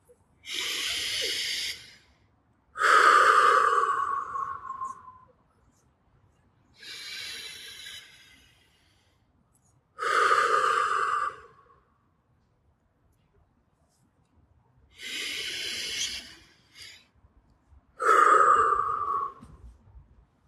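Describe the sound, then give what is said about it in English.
Three deep, slow breaths taken as a guided breathing exercise. Each is a long airy inhale followed by a louder, hissing exhale, with quiet pauses between the three breaths. “Final, let's take three final breaths. We got to. Ready?”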